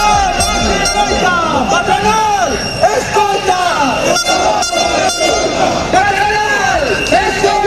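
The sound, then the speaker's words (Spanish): A metal-sector strike demonstration of over 2,000 people marching through central Vigo, with horns blaring almost continuously over a dense wash of shouting and crowd voices, loud and unbroken throughout. “Más de 2.000 personas participaron en la manifestación que recorrió el centro de Vigo en la primera jornada de huelga del sector del metal de la provincia de Pontevedra.”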